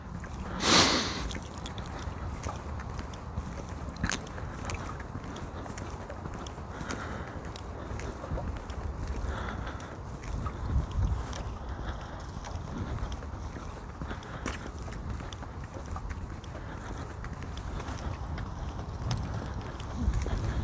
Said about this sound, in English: That wind is sharp. It's 40, it's in the low 40s, but that wind is just...